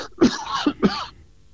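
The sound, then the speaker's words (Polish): A man clears his throat with three short, harsh coughing bursts within about a second, then falls quiet. “Przepraszam, muszę odkaszlnąć.”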